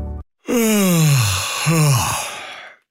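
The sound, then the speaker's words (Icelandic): A person yawns aloud: a long voiced groan slides steadily down in pitch, then a second, shorter falling groan follows. Both are loud and heard alone. “Ertu núna geispa? Kannski kominn tími til að stoppa bílinn og fá sér kaffisopa?”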